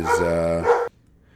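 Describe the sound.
A dog lets out a drawn-out, tonal yelping bark of under a second, with a second push near its end, then abrupt silence.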